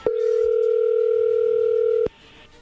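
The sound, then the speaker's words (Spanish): Telephone dial tone: a steady, unbroken mid-pitched hum holds for about two seconds, then cuts off abruptly with a click, leaving faint low noise. “vamos a marcarle, Héctor, a tu esposa Yolanda y a ver qué sucede.”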